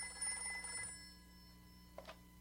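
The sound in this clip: A telephone bell rings in a family home, faint and steady at first, with a short bright burst of ringing near the end.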